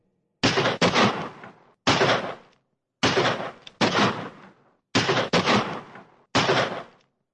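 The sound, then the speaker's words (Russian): A pistol fires off its whole magazine: a series of loud, sharp blasts, each with a short ringing decay, coming in irregular pairs and singles separated by silent gaps. “Пистолет загрохотал, выпустив на кровавый промысел весь свой магазин.”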